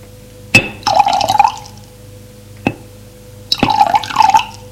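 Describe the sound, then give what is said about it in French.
Water is poured from a carafe into a glass in two passes. Each starts with a sharp glass clink followed by a short, bright, gurgling pour. “Elle prend une carafe d'eau pour remplir le verre.”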